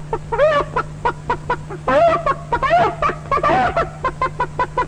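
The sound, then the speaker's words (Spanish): A human voice imitating a whole henhouse waking on a hot, hazy afternoon: loud, rapid clucks and squawking calls with wavering pitch, delivered in a busy, uneven stream of short bursts. “Por ejemplo, este despertar en la tarde caliginosa de todo el gallinero.”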